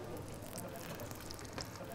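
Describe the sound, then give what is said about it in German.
Steady sizzling of halloumi grill cheese searing on a hot grill plate, a dense continuous hiss with faint crackles that holds an even level throughout. “Und dann grillen wir jetzt den Käse mal richtig schön scharf an.”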